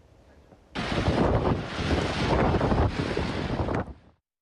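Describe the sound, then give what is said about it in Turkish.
Wind from a waterspout tornado in Sicily roars in suddenly as a dense, rough rush of noise, holds steady for just over three seconds, then cuts away quickly to silence. “Dev hortum ekranlarınızda, çifte hortum oluştu”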